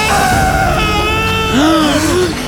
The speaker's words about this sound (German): Das war ein Schrei. Ja, das hat sich nach einem Mann angehört. Irgendwo hier im Wald.